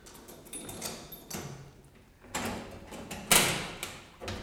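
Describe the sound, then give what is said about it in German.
A weapons chest being unlocked and opened gives a few sharp clicks and knocks, some louder than others, spread out with short gaps. “schließen Sie die Waffenkiste auf.”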